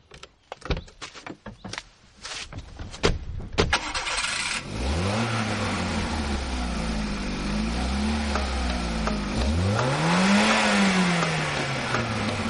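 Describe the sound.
Car engine starting and revving after a run of clicks and thumps, then catching into a loud, steady rumble that swells in revs a few times and holds.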